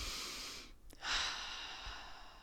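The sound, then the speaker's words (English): A single deep breath, soft and quiet: a breathy inhale, a short pause, then a fuller exhale that trails off, with no talking. “So first take a deep breath”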